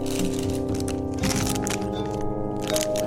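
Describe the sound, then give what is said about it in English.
Crinkling and crunching as a packet of gummy candy star mix is opened and the gummies are munched, a fairly loud, continuous run of rustles and chewing noises. “just opening candy and just munching?”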